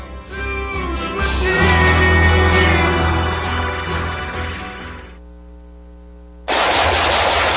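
Loud, rapid automatic gunfire from shooting: a dense, continuous burst rattles for about five seconds, eases into a quieter steady drone, then abruptly resumes at full intensity near the end.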